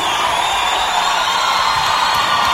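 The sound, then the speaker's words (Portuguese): Applause and cheering from a live concert audience, an even, continuous roar of clapping and voices that holds steady throughout. “E peço aplauso pra vocês, participação especial nessa música do nosso produtor, Dudu Borges!”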